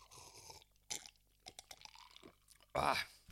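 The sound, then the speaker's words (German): Someone takes another sip of a drink. Faint, broken mouth and swallowing noises come in short scattered bursts, ending in a slightly louder, breathy burst. “So, nochmal einen Schluck.”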